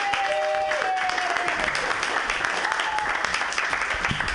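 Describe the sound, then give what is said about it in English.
Audience applause at a live comedy show, a steady, dense clapping that greets a comedian and holds at an even, loud level throughout. “Everybody put your hands together.”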